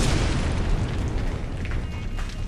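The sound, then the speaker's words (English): A massive explosion rocks a spaceship hangar bay in an audio drama. The blast is a loud, sustained roar with a deep low rumble filling the whole stretch, with no talk. “a massive blast rocked the hangar bay. A shockwave slammed into Greta and her bodyguards, lifting them up and sending them sprawling through the air. A second explosion buckled the giant pressure door”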